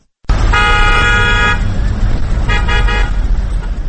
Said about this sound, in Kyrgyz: Оштогу май куюучу бекеттердин айрымдарында автоунаалар мынтип кезек-кезекке туруп калышты.